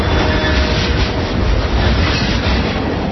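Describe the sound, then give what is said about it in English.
A CSX freight train passes with a loud, continuous rumble of rolling wheels and railcars. The deep roar holds steady throughout with no break and no talk. “That's the sound of a CSX train doing its part to move the economy forward.”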